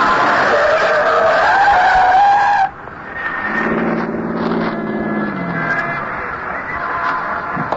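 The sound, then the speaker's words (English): A yellow taxi spins around a snowy Manhattan street corner and skids to a stop astride a brown snowbank at the curb. A loud, high tire squeal holds for a few seconds, then drops away to a lower, softer rumbling drone. “A yellow taxi spins around the corner at 103rd and West End and settles to a stop astride a brown snowbank piled high at the curb.”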